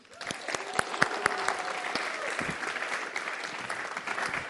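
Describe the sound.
An audience applauds to welcome a guest speaker, Cindy Lee, to the stage. A few sharp claps open into steady, even clapping that continues to the end.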